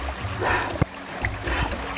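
A forest stream flows in a steady, broad watery rush with gentle swells in level and a single brief knock.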